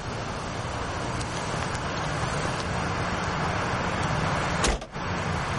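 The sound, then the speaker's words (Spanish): A car door shuts once as a woman gets out of the car, a single sharp thud near the end over a steady wash of city traffic noise. “Ella se quita el cinturón y baja del coche.”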